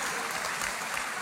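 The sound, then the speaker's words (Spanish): Women in an audience applaud during a talk, a steady, even patter of many hands clapping at moderate loudness with no voices over it. “Y las mujeres están aplaudiendo ahorita, ¿ok?”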